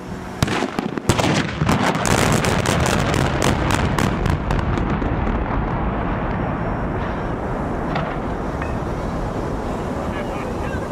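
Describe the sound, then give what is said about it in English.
Explosives demolition implosion of the Pontiac Silverdome stadium: a rapid burst of many sharp, loud blasts gives way to a long, heavy rumble that continues steadily and slowly loses its brighter edge. “Here's the sound of the implosion without any commentary. If you were just there, this is what it sounded like, okay?”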